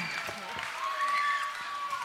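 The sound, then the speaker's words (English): Audience applause breaks out for two performers at a live comedy show, a dense, steady clatter of many hands that holds at an even level throughout. “Could you guys give a round of applause for Sam and for Becca?”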